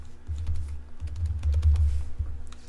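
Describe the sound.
Keys clatter steadily on a computer keyboard as someone types a note during a conversation. The tapping is quick and continuous over a low hum, and no one speaks.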